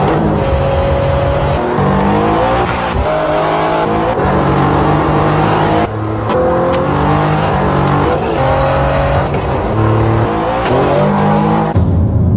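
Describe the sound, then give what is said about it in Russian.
Car engine sound from an automaker promo: a loud engine revs in repeated rising runs, broken by short gaps like gear changes, with the tone climbing again after each break. “открыли, создали автопроизводители эту нишу в музыкальной индустрии. Ниша называется предельно просто «Саунд моторов».”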